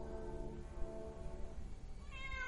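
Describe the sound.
Wild cats yowl in drawn-out, harmonic wails that waver and overlap at the start. A fainter rising cry follows near the end. The whole passage is quiet and unaccompanied by talk.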